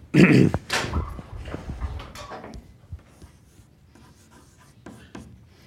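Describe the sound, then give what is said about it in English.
Scratchy writing strokes on a board during a lecture, loudest in a burst of quick strokes at the start, then fainter, scattered scrapes that taper off, with no talking. “So I'll write down excitation.”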